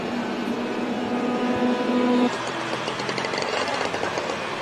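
Racing car engines sound as cars cross the finish line during a qualifying session. A steady engine drone with a held tone runs for about two seconds and then cuts off, leaving a broader rushing roar.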